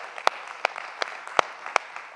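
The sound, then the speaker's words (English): Sparse handclaps from a church service audience welcoming guests, about five sharp, evenly spaced claps standing out over faint background noise. “Come on, let's give it up for a guest.”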